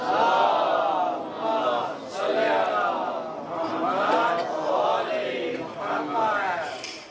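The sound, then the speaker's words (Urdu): A crowd loudly chants the salawat in unison, its voices rising and falling through a few repeated phrases. “بآواز بلند نعرہ صلوات.”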